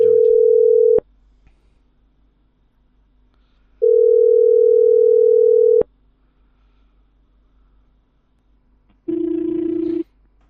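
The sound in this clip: Telephone line tones sound after the caller hangs up. A loud, steady mid-pitched beep is followed by a pause, then a longer beep at the same pitch, and near the end a lower, buzzier tone. No voices are heard.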